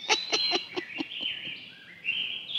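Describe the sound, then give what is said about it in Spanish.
Hungry newly hatched crow chicks call for food with a rapid run of short, sharp peeps, followed by thinner drawn-out whining cries that waver in pitch, all fairly faint. “¡Caramba, pero qué hambre tienen! No acaban de salir del cascarón y ya están desesperados por comer.”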